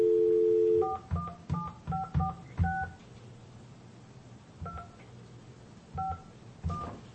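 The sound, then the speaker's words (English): Telephone keypad tones sound as a number is dialed: a quick run of short, evenly spaced beeps, then a pause and a few more scattered beeps over faint background noise. “Hold on. Or should I not dial 1? Don't dial the 1. Okay. It's just 9546.”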